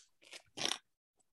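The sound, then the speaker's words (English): Someone bites into a hard, homemade-style granola bar, making two sharp, loud crunches in quick succession, the second louder, followed by a tiny click. “I think I'm going to break a tooth trying to bite this.”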